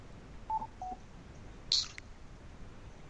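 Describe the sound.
Barcode scanner beep: a short, high-pitched electronic chirp after two faint, lower brief tones, all quiet over a soft background hiss.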